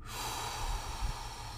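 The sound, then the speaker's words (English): A person exhales fully out of the mouth: a steady, breathy whoosh lasting under two seconds, heard alone. “So just breathe in normally. Take an exhale out of your mouth fully.”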